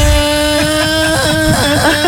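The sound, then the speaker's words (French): A motor scooter engine as its rider sets off in a hurry. A loud, buzzing harmonic drone holds steady at first, then wavers up and down in pitch as the engine revs, with no talk over it. “Oui, mais je prends mon scooter immédiatement. Oui, j'arrive.”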